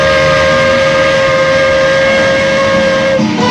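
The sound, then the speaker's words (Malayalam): A train departing a railway station: a loud, sustained horn-like tone holds steady over broad rumbling rail noise for about three seconds, dropping off just before the end. “ഒടുവിൽ train പുറപ്പെട്ടു.”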